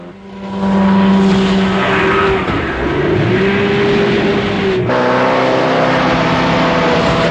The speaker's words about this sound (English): Bond zips through a small gap and accelerates across the water.